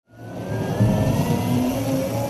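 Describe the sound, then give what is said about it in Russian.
Buzz of an electric two-seat Airbus plane taking off at an airfield near Paris: a steady droning hum swells in quickly and then holds, with a thin high whine running alongside. “Тихое жужжание – это все, что сопровождало взлет электрического самолета на аэродроме недалеко от Парижа.”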